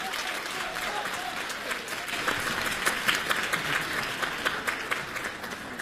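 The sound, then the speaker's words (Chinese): Audience applause greets two performers at a live crosstalk comedy show: dense, continuous clapping that swells a little past the midpoint, with sharper bursts of claps standing out. “《找堂会》，我们掌声有请。 有请二位。”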